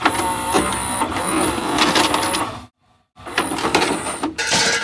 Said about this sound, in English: the tape fell out. Tape fell out of the player.